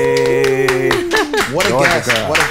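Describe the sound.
Audience applause welcoming a guest, the president of Motown Records, a steady patter of clapping that runs the whole clip beneath sustained tonal music and voices.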